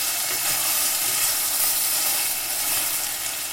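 Tomatoes and vegetables sizzle steadily while being stirred in a pan: a constant, even frying hiss with no talk over it.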